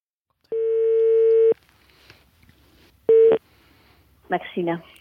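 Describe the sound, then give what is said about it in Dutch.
Telephone dialling and ringing as a call is placed: a steady tone of about one second, a pause, then one short beep, followed by a brief voice. “En nou ja, laten we maar eens gaan bellen dan.”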